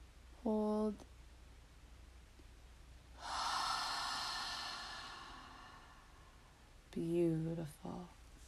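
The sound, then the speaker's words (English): A long, deep breath in during a guided meditation: a smooth, airy rush that swells and then slowly fades over a few seconds. A calm voice speaks briefly before and after it. “Big breath in.”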